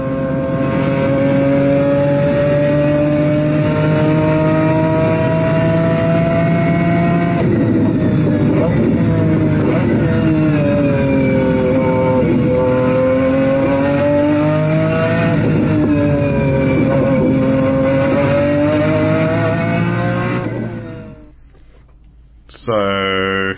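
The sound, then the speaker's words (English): BMW V12 engine in a McLaren F1 car revving: a loud, rich harmonic roar that repeatedly climbs and falls in pitch for about twenty seconds, then cuts out before one brief final blip. “So that, maybe you might recognize, is a BMW V12 in a McLaren F1.”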